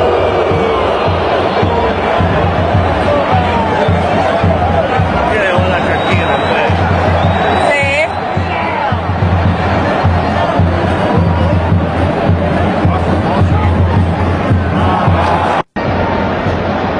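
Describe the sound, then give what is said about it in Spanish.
Stadium crowd in Las Vegas roaring when the ball returns to a player during a soccer match: a loud, sustained wall of cheering and shouting that holds steady throughout. “Volvía el balón al jugador. Y ahí está la impresionante reacción del público.”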